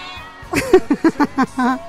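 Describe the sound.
A house cat meows as it wanders around the home, giving a quick run of short, bright meows that ends in one longer, drawn-out call.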